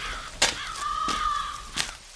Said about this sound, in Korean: 그래서 그런지 까마귀가 떠나질 않네요.